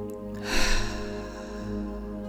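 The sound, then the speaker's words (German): A slow, deliberate breath in through the nose and out through the mouth during a guided mindfulness exercise, a soft airy swell over a sustained tonal drone. “atme jetzt nochmal bewusst durch die Nase ein und lösen durch den Mund wieder aus.”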